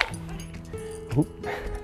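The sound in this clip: A dog barks and yips repeatedly during an uphill walk in pleasant weather, its moderately loud calls rising over steady background noise, with a voice speaking faintly at times.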